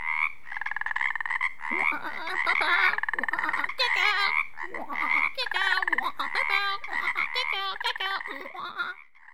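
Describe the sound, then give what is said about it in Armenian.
Frogs croaking in a dense, continuous chorus, with rapid rasping calls overlapping throughout at a steady, fairly loud level and no real pauses. “Գորտերը շարունակում են կրկռալ”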